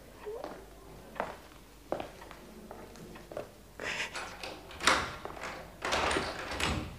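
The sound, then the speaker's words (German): A door in a house is closed and locked, heard as a series of wooden knocks, clunks and scrapes at uneven intervals, growing louder toward the end, with no talk. “Wir müssen abschließen wegen all der Möbel hier.”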